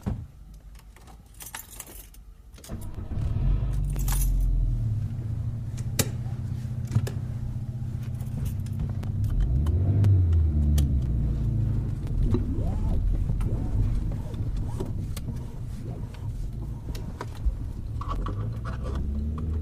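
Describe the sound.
A car engine starts after a brief jangle of keys, then holds a steady low rumble as the car drives. Its pitch briefly rises and falls midway, and faint voices come through now and then.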